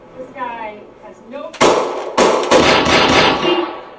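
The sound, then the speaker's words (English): Sharp gunshots fired during a police training simulation: a few loud, cracking bangs in quick succession follow a stretch of talk, and a noisy wash hangs on after each shot. “In both simulations, the officer has mere seconds to size up the scene before one of the actors pulls a gun.”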